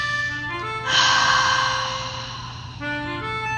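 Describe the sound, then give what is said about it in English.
One deep breath drawn in, a long, breathy inhalation lasting about two seconds over a steady tonal backdrop. “Let's sit up straight and let's take a deep breath.”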